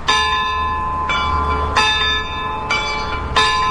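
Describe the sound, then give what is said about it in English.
Clockwork-driven clock chime bells strike the quarter hour with five loud, ringing strikes at uneven intervals. Each strike's bright overtones decay slowly and overlap the next, over a steady low rumble. “She likes the clock chimes. Those bells are activated by clockwork.”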